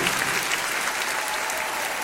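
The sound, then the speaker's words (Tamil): An audience claps hands in praise of the Holy Spirit during a Tamil Christian worship service. The applause is dense and steady, with no pause, for the whole span. “பரிசுத்த ஆவியானவருக்கு கரங்களை தட்டி மகிமைப்படுத்துவோம்.”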